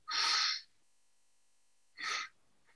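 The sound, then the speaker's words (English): An intentional deep breath: one long, loud, airy breath sound, then a pause and a second, shorter breath, both alone with no talking. “we take that first intentional deep or longer breath and then kind of let go”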